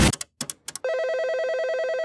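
An outgoing telephone call: a few short bursts of dialing tones are followed by a steady, pulsing electronic ring tone that keeps sounding to the end.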